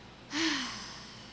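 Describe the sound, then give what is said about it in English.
One deep breath is drawn in and let out during a guided breathing exercise. A sudden airy intake carries a brief voiced tone, then the breath trails off slowly and softly. No talk is heard. “Take a big breath in. Notice the chest start to fill, start to rise until you can't take any more breath in. And on the exhale, release everything.”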